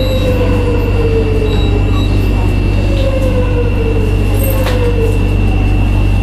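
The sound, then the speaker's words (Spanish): Modern metro train at a station while its doors close and open and passengers board: a loud, constant low rumble and drone with faint high wheel squeals and thin whining tones running through it. “Cierre de metro. Ahí está, se abren las puertas, gente entra. Este es el metro moderno.”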